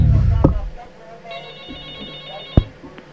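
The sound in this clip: A studio telephone on a live call-in line rings with a bright, high electronic trill lasting just over a second, framed by a sharp click before and another after.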